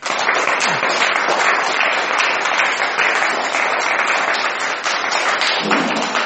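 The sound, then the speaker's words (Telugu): A group of people claps hands together at a meditation session, a loud, dense wash of many overlapping claps that goes on steadily throughout with no talk. “ఒకసారి ధ్యానానికి చప్పట్లు కొట్టాలి.”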